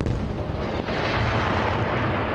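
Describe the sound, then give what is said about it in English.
Explosions from renewed fighting between Israel and Hamas in Gaza form a dense, continuous, heavy rumble. It stays loud throughout, with no clearly separate blasts standing out. “More explosions as renewed fighting continues between Israel and Hamas.”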